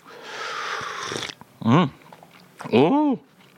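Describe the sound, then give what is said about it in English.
Slurping of a hot drink from a china cup: a sustained, breathy sucking hiss lasting over a second. It is followed by two short voiced murmurs with a rising then falling pitch. “Pick up your china cup and have a quick slurp of the hot beverage.”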